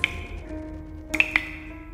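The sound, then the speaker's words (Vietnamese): Water drips at night in a few faint, high, clear pings: one single drop at the start, then a quick cluster of three about a second later, over near-silence. “thì tự nhiên Nhi nghe tiếng nước nhỏ giọt.”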